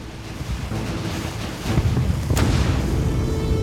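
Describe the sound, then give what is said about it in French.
Naval bombardment by rows of American warships, heard as low rumbling blasts under steady wind and surf noise, growing heavier midway, with one sharp crack near the end. “Quand une rangée avait terminé son pilonnage, une autre rangée de navires arrivait depuis le sud. Les bombardements se poursuivaient sans répit.”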